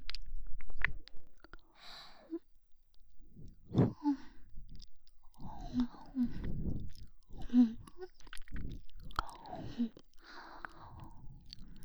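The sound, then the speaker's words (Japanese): Wet, close-up ASMR mouth sounds of sucking and nibbling on an ear, made of many soft smacks, clicks and slurps in an irregular rhythm, quiet and intimate throughout. “こんなにもおいしいなら、いっぱいチュパチュパさせてもらうわね。”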